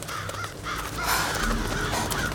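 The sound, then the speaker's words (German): Crows cawing among trees in the dark: several harsh, rasping caws repeat over a continuous low background rush, with no speech. “Krähen? Sie beobachten mich.”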